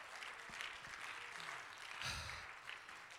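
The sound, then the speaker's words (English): Congregation clapping hands at a church revival service, a quiet, dense, even patter of applause that continues throughout. “Well, clap your hands to the Lord and you may be seated.”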